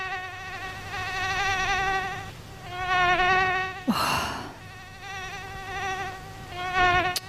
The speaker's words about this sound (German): Nervig, oder? Also das ist so ein Geräusch, da stehe ich dann nachts doch nochmal auf und mach Licht an. Weltweit gibt es schätzungsweise um die 3700 Stechmückenarten.